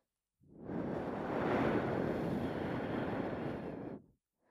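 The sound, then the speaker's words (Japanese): A single long breath blown into the ear in a close-up roleplay, a soft rushing gust of air that swells, holds steadily for about three and a half seconds, then stops abruptly, with no talking. “耳舐め好きそうな顔してし、ちょっと息吹きかけてみっか。”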